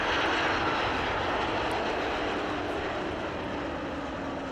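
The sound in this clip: Airplane landing at Arlanda airport, heard as a steady, broad engine roar that fades slightly toward the end. There are no voices.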